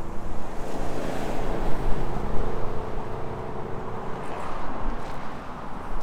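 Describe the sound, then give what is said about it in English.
Wind gusts outdoors on a street, producing a continuous low, rushing roar with buffeting bursts against the microphone that swell and ease unevenly throughout. “I was kind of waiting for the wind to quiet down. It kind of comes in gusts.”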